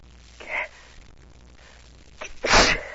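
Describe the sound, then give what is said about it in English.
A person with an irritated, runny nose sneezes: a softer breathy burst, then one loud, sharp sneeze near the end with a quick intake of breath before it. “All this sneezing and everything.”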